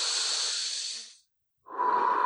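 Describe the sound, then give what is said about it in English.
A person takes a deep breath: a long, airy rush of breath, then a brief silence, then a second breathy, hissing breath. Both are fairly soft and heard alone, without talk. “I'll take a deep breath there. Hold on.”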